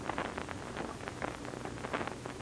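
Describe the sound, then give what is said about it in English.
Rain falls steadily, heard from inside a sheltering building, as a dense, continuous patter at a moderate level with no voices. “Well, we're out of the rain.”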